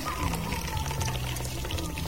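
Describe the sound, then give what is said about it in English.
Coffee being poured from cup to cup in an unbroken stream, a continuous, fairly quiet trickling splash that stays even in loudness from start to finish. “So when we pour, we never stop from, you know, cup to cup. So you just pour.”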